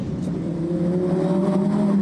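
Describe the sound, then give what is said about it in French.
V10 car engine running hard, heard as a dense, steady droning roar with a strong low tone that climbs slightly in pitch across the two seconds, loud and alone. “Oh, et puis ce son du V10 là. À chaque fois que je passe un rapport supérieur ou inférieur,”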